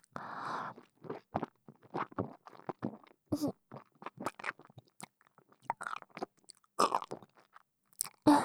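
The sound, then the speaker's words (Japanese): Food being chewed up close, with many crisp, crunchy bites in an irregular rhythm and soft wet clicks between them. There is no talk. “まずよく噛んでから。”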